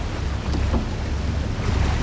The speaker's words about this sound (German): Das ist das Wassertaxi.